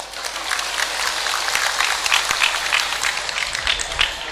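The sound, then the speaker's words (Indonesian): An audience applauds with a steady, dense patter of many hands clapping together, keeping an even level throughout. “Boleh tepuk tangan.”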